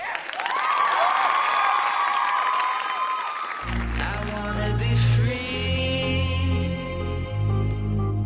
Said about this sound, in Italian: a me non resta che dargli un bellissimo applauso, anche se un po' disperato.